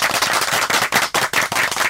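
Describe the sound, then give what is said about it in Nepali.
At a municipal executive council meeting, council members and elected representatives clap in support, producing loud, rapid, sharp claps in a steady rhythmic pulse. “कार्यपालिका सदस्य तथा जनप्रतिनिधिज्यूहरूको समर्थन छ भने ताली बजाएर समर्थन गरिदिनुहोला”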